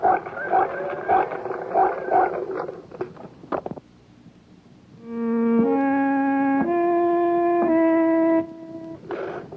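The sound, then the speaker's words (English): A pig grunting: a run of short, rough grunts comes in quick bursts at the start, followed after a pause by a sustained tone that shifts in steps. “This is a pig.”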